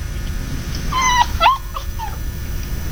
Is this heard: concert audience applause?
no